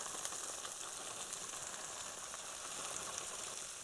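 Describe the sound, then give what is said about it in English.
Steady, bright sizzling of a tricolor coleslaw cabbage mix cooking down in a hot pan, a constant crackling hiss with no pauses and no voices. “I'm going to put the whole thing in here because this cabbage will cook down, okay? So I'm going to sprinkle it right in there.”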